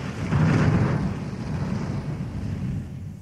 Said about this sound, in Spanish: Un trueno sonoro anunció el comienzo de la función y una batuta de rayos se encargó de la obertura.